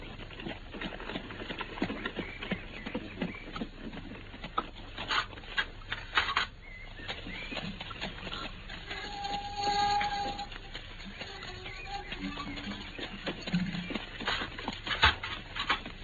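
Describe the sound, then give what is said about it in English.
Horse-drawn carriage arriving in a driveway, with irregular clip-clop of hooves and rattling, rumbling wheels over about sixteen seconds, fairly quiet and uneven, with no voices. “I can see the carriage in the driveway now.”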